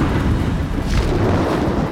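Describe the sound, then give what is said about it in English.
A deafening crash of thunder rolls as a loud, sustained low rumble with a brief crackling surge midway, with no voices over it. “With the deafening crash of thunder, it took off.”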